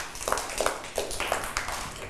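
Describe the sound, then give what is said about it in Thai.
Light, scattered clapping as a host asks a small group to applaud a child, with a few separate soft claps spread through the moment rather than a full burst of applause. “ปรบมือให้กับขวัญเอ้ยหน่อย”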